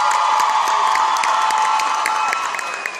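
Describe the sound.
Audience applause at a live music performance honoring a singer, dense continuous clapping mixed with cheering that holds steady and eases slightly at the end.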